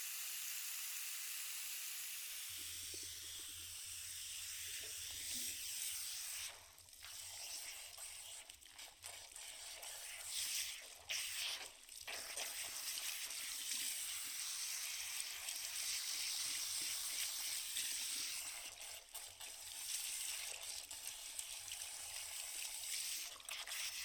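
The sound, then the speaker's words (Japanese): Water runs over hair during a salon hair wash, a faint, continuous hiss of spray lasting the whole clip, with a few brief dips. “では髪を洗っていきますね。”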